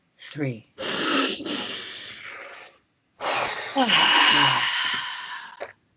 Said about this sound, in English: We're gonna take a deep breath from this purge before we jump into our next topic.